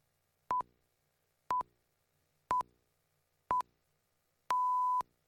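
Radio time signal at the top of the hour: four short, identical high-pitched beeps spaced one second apart, followed by a longer final beep at the same steady pitch. The beeps are clean and stand alone against silence.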